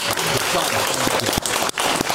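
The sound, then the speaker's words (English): Audience applause during a vote by clapping for one contestant at a live show: a dense, steady patter of many hands that lasts the whole time, with a couple of brief dips near the end. “Sonny Green, clap for Sonny Green”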